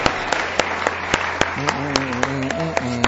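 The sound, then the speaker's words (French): A church audience claps in scattered, sharp, uneven hits that stay thin rather than forming full applause, and a voice starts speaking over the later claps. “Est-ce qu'on peut acclamer pour ça, frères et sœurs? C'est incroyable ça.”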